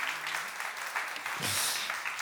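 Applause from an audience at a church service, a dense, steady patter of many hands clapping that holds at an even level from start to finish.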